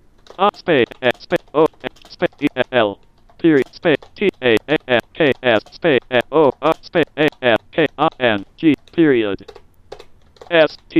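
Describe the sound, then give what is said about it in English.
Computer keyboard keys click in quick, irregular bursts as a reply is typed, with a synthetic voice speaking short snippets between and over the keystrokes. “There we go. I just typed a reply.”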